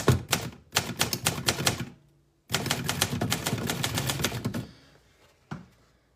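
Rapid typewriter keystrokes clatter in two long runs separated by a short pause, then a single louder strike near the end.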